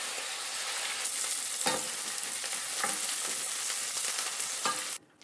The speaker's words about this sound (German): Und dann lege ich den durchwachsenen Speck da rein und brate den richtig schön scharf an. Von beiden Seiten.